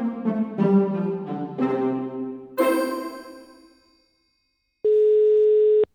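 A telephone rings out while calling a running-shoe shop. A series of chiming notes fades away, then one steady, mid-pitched ringback tone sounds for about a second.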